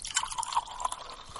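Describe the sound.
Wine is poured into a glass, a faint, continuous trickle with a light ringing, watery tone that holds steady throughout.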